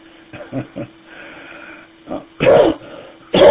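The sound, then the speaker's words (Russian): A smoker's cough after a cigarette: brief talk comes first, then two harsh, rough coughing bursts stand out against a quiet background. “Да что такое, только накуришься. Вот, и кашель немножко берет.”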